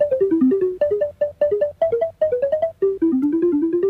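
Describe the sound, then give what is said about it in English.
Tape music built from a recording of water slowly poured from a cider bottle, replayed at different tape speeds to make the notes, forms a brisk melody of many short, plucky, bell-like pitched tones, loud and continuous. “The basic sound used for this music was made from a recording of water being slowly poured from a cider bottle. By taking just one of these sounds, all the notes that were wanted were made by playing the tape back at various speeds.”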